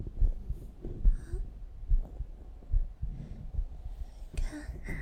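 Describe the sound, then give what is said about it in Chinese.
Heartbeat sound with a slow, steady series of soft, low thumps repeating at regular intervals under faint background noise. “你摸，你摸我的心跳，感受一下我有多真诚。”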